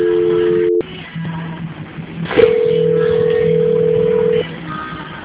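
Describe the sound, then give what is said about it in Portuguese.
Telephone line tones as a call is transferred to another line: a steady tone that cuts off, line hiss with faint low hum, then a click and a longer, higher steady tone that stops abruptly. “eu vou pedir que você aguarde na linha que eu vou transferir o seu contato para o controle de qualidade, tá?”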